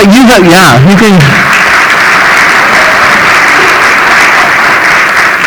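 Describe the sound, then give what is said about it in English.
An audience applauds during a church service to thank the worship team. The clapping is loud, dense and steady throughout, with a brief wavering voice rising over it at the very start. “and really, that applause is for God because of what you helped us to see today.”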